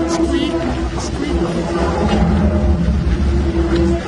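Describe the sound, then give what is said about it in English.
A steady, droning rumble from inside a well, broad and constant with a low hum and faint higher tones. It stays fairly loud throughout with no distinct events. “Sounds like some sort of machine. It is a well. It is not the inside of a machine.”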